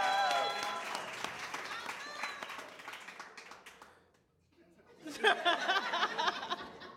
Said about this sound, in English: Ladies and gentlemen, put your hands together for Miss Brandy, y'all. Make some noise for Brandy, y'all.